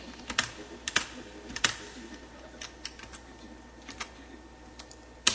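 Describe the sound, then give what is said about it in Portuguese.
Keys tap on a computer keyboard while someone types a title, a faint, irregular run of many separate clicks with short pauses between them and no talk. “Eu vou digitar um outro título aqui.”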